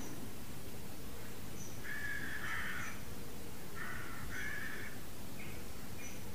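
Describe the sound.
Crows cawing outside: a few harsh caws in short clusters over a steady background hiss, fairly faint, with no talking.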